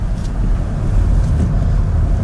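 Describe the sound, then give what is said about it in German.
Steady low rumble of road and wind noise inside an MG4 electric car of about 1.7 tonnes driving on a wet, winding road. The noise is broad and even, with no clear engine note. “Der MG fährt sich wirklich gut. Das ist herrlich. Er fühlt sich mit seinen knapp 1,7 Tonnen richtig leicht an.”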